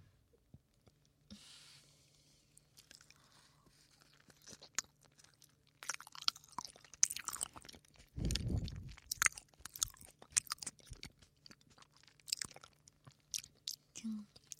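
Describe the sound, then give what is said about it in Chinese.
Someone chews and eats soft, very sweet durian, making many faint, irregular wet smacks and clicks, with denser, louder bursts of chewing in the second half. “这个榴莲真的巨甜，太好吃”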